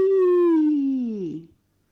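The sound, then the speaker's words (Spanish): A whale call sounds as one long, loud tonal moan with rich overtones, sliding slowly downward in pitch before breaking off abruptly, followed by silence. “Las ballenas la estaban llamando.”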